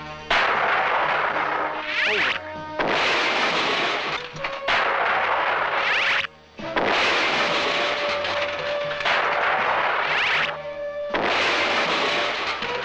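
Cartoon bombs being dropped and exploding in an animated series: a loud, nearly continuous barrage of booming blasts and rumbling crashes, broken only by a few brief gaps.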